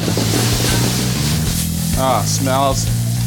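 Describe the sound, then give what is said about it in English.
Meat fries in hot olive oil in a busy home kitchen, a dense, steady sizzle with crackling texture throughout, and a voice briefly heard over it. “Since you're adding the meat, and you can also do it with tofu options as well for the vegetarians. Olive oil. So now we're going to season it up.”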